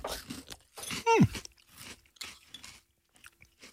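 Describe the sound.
Crunching of small pebernød spice cookies eaten in a cold buttermilk dessert: a few soft, crisp bites spaced apart, with a short falling hum in the middle.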